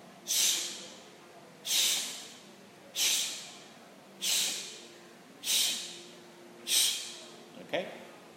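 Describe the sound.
Six forceful, evenly spaced exhales, each a sharp puff as the belly pumps in during a breathing exercise. Every breath bursts loudly and then tails off quickly, followed by a small click at the end.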